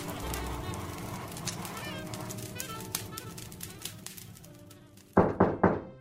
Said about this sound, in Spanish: A veces alguien llama a su puerta.